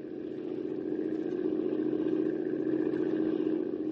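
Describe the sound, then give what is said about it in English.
A motorboat engine runs steadily with a droning, mid-pitched rumble and a fast, even pulsing texture. It rises slightly in loudness at the start and then holds a constant level, with no speech. “You better shut off the motor”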